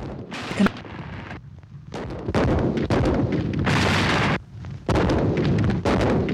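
Artillery fire from a Mexican barrage against the Alamo's outer wall: many loud, heavy booms and blasts in close succession, with rough rumbling between the bursts.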